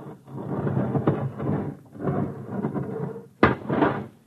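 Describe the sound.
An airlock door on a spaceship closes with low, rumbling mechanical noise in several drawn-out surges, then a sharp, heavy thud near the end followed by more rumbling. No voices are heard.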